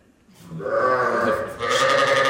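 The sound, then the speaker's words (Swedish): Sheep bleat on a farm where sheep are sheared: a sustained, wavering bleat swells up and carries on, joined by another loud bleat in the final second. “fåren bräker här på Strömmens gård”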